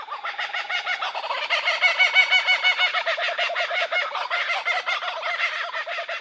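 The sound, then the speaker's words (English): Kookaburras calling in the morning: a dense, raucous chorus of cackling, laughing calls in a rapid pulsing rhythm, rising and falling in loudness and running continuously and loud throughout. “It is a very happy sound. I think they're just waking up in the morning and they're feeling great, and they're just letting other kookaburras around know that this is their territory.”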